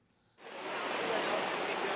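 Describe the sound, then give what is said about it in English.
Heavy downpour of rain over flooded Bangkok, near the international airport: a dense, loud, steady hiss that sets in abruptly after a short quieter start and then holds constant. “Just a few kilometres from Bangkok's international airport, the downpour continues.”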